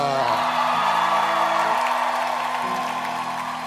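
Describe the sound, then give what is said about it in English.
A church audience shouts and cheers in welcome during a morning service, with whoops and yells forming a loud, continuous crowd roar that lasts the whole clip. “With joy and gladness, please shout and welcome Ida.”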